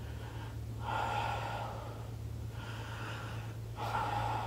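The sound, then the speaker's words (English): Labored breathing demonstrated by a person taking deep, heavy breaths, several rasping inhalations with short pauses between them, over a steady low hum and without speech. “it sounds like a labored breath”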